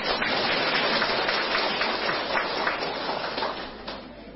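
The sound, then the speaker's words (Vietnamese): Audience applause, a dense, continuous patter of clapping that holds steady and then eases slightly toward the end. “Dân tộc Việt Nam chúng tôi là con rồng cháu tiên, vỗ tay.”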